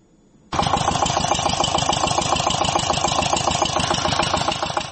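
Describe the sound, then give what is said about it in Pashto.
A water pump engine drawing water from deep wells for melon fields in Helmand bursts into life after a faint low hum, then runs loud and steady with a fast, even chugging pulse until the end, with no voices. “کروندګر د پالیز د پاره اوبه د ژورو څاګانو نه د واټر پمپ ماشین په واسطه راباسي.”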